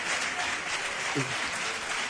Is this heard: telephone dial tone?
no